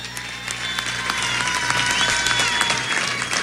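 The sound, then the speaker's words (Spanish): Audience applause for a state at a live event celebrating plains (llanero) music: steady, dense clapping from a crowd, loud and unbroken for the whole few seconds, with no one talking over it. “Vamos a darle un aplauso a Portuguesa.”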